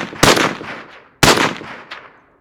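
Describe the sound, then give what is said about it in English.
Two loud, sharp gunshots about a second apart, each followed by a long, fading echo, with a smaller crack after the second shot. “You shot him! He's surely dead, but we better check.”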